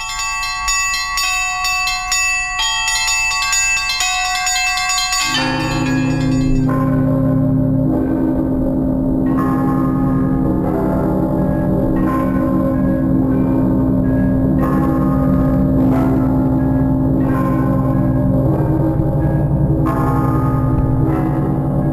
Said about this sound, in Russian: К 17 столетию наступил золотой период в истории звонницы. Один из лучших колокольных наборов в мире работал в полную силу.